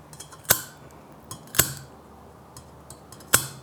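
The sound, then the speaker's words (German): Scissors cut flower stems straight across during an ikebana arrangement, giving three crisp, sharp snips at uneven intervals, with a fainter click before the second one and a soft background hiss throughout. “Blumen schneidet man immer gerade und gibt sie direkt.”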